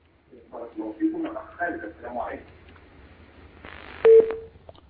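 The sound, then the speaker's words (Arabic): Telephone call disconnecting: a voice talks briefly, then after a lull a short, steady mid-pitched tone sounds with a couple of clicks as the line drops. “انقطع اتصال خالد، ربما عاد إلينا.”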